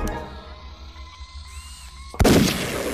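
A single gunshot fired at a person, a sudden loud crack breaking a quiet low hum, then a rumbling decay that lingers to the end.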